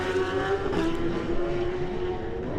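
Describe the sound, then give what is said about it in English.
Steady, loud engine drone of the Dow Racing Honda superbike pulling away at the start of a road race, holding a sustained, even pitch throughout with no voices over it. “Josh Brooks gets away next on the Dow Racing Honda.”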